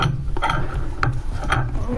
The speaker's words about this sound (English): adjust my wrench so that it will fit, and put it on the nut. And turn the nut